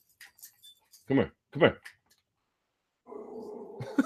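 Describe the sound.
A small 15-pound dog vocalizes: two short, whiny yelps stand out after a few faint sounds, and a raspy, sustained whimper follows toward the end.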